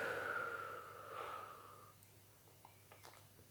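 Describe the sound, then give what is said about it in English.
A deep breath blown out in one long, breathy exhale that starts strong and fades away over about two seconds, then gives way to near silence with a few faint soft clicks. “Deep breath, breathe in. Gather up all the negativity and blow it out.”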